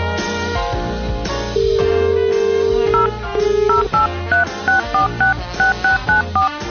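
Touch-tone keypad beeps as a telephone number is dialled quickly: a couple of longer tones, then a rapid, evenly spaced run of short beeps at changing pitches.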